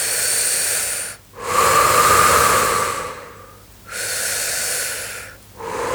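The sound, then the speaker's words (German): Slow, deep breaths drawn into the belly. Long, loud, airy inhalations and exhalations flow in cycles of a second or more, separated by short pauses, with no talking. “Atme wieder ein paar Mal tief in deinen Bauch hinein.”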